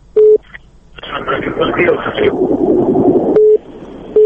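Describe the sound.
Short steady telephone beeps sound as a radio listener's phone call disconnects: a few brief beeps at the start and end, with voices and line noise filling the stretch between them.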